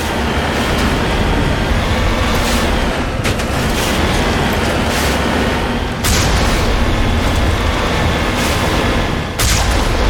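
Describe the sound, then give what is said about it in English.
A tank's big gun fires in the Mass Effect video game, a few heavy booms punching through a loud, continuous rumbling drone of the vehicle. “Okay, so we have a tank big gun, which just has a cooldown. can't fire it too fast.”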